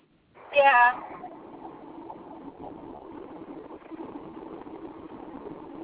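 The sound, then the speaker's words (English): Low, steady car engine hum while driving through farm country, running quietly and continuously beneath a person talking. “right now I'm driving through nearly the middle of nowhere. I'm in farm country now.”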